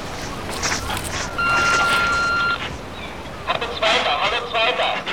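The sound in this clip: Electronic call tone from a radio transceiver announcing an incoming call: one steady, high-pitched beep held for about a second, followed by noisy rustling bursts.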